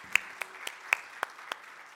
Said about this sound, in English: Okay, let's clap for our very handsome men.